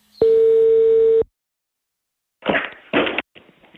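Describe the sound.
A telephone ringback tone sounds on a call placed to a political party's office in Italy: one long, steady tone of about a second, then a pause, then a few short noisy bursts.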